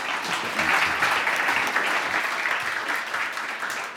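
An audience applauds to welcome a guest preacher, a continuous wash of many hands clapping at an even, fairly loud level throughout, easing slightly at the end.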